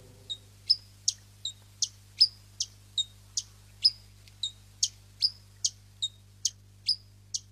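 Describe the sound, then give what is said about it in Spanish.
Short, high chirps from a hummingbird, a tiny bird, repeat many times in a steady, evenly spaced rhythm, each note sharp and clear with no voices. “el colibrí es un ave de diminuto tamaño. Existen muchas especies y de diferentes plumajes y colores.”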